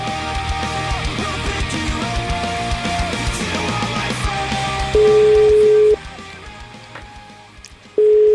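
Telephone line tones sound while a call is being placed. After a stretch of dense background sound, a steady single tone holds for about a second, drops away, then returns at the very end.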